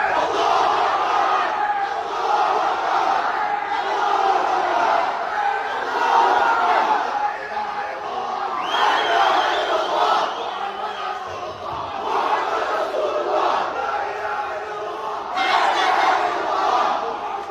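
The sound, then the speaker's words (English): Loud crowd of protesters marching in Australia, a continuous mass of shouting and chanting voices that swells and dips in waves without a break. “Anyway, Muslims, they're marching in Australia.”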